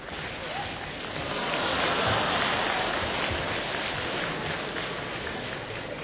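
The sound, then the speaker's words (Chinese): Audience applause at a live crosstalk comedy show for a Youth Day performance, a dense, steady clatter of clapping that swells in the middle, then eases slightly and continues to the end. “谢谢您的掌声鼓励。”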